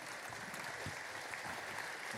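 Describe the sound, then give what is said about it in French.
An audience applauds as people are called onto the stage at a European prize ceremony. The steady, dense clapping is fairly faint and holds at an even level throughout. “Vous pouvez les applaudir.”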